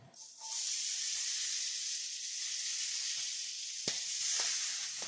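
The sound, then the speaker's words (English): Peppers sizzling in shrimp-flavored fat and oil: a loud, steady frying hiss that fills the whole clip, with a couple of brief pops near the end. “So I'm going to go in with some peppers.”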